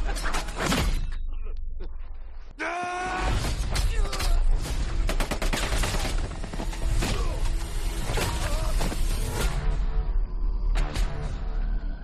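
Gunfire in a war action film trailer, many sharp, loud shots in rapid, irregular bursts packed into a dense, continuous mix that runs throughout.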